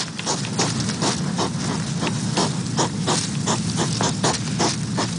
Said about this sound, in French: Eh bien, ce sont des hérissons très démonstratifs lorsqu'ils font l'amour.